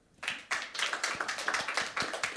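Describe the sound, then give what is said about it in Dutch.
An audience applauds a guest of honour at a television talk show table with a dense, steady patter of many hands clapping. It swells quickly, then carries on at an even, moderate level with no talk over it. “Even een groot applaus voor onze gast, onze eregast natuurlijk, Björn.”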